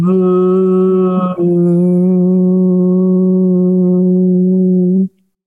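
A sustained voiced 'voo' is hummed on one low, steady pitch for about five seconds as a breathing exercise, with a brief wobble early on, held until the breath runs out and then cut off abruptly.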